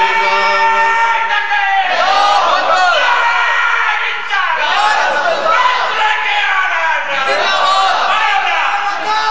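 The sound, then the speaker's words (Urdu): A loud crowd of voices chanting the Maslak-e-Ala Hazrat slogan in unison, shouted phrases repeating in regular surges every couple of seconds with swelling and falling pitch, continuous throughout. “مسلک اعلی حضرت کا نعرہ لگ رہا ہے ہمیشہ لگے گا”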